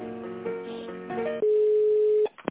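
Telephone ringing tone as a call is transferred to a tender department: shorter melodic tones give way to one long, steady mid-pitched tone that holds loud and alone before cutting off.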